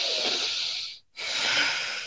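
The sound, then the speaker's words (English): A huge, deliberate demonstration breath, taken to lead anxious clients into breathing along: a long, loud, airy draw of breath, then a second long breath after a brief silent pause in the middle, with no talk. “If I take that huge breath and go with them, they will start doing it.”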